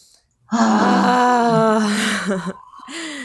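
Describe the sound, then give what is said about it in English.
A deep breath let out audibly as a long, loud voiced sigh lasting about two seconds before tapering off, followed by a shorter, softer breath. “Deep breath and like let it out audibly.”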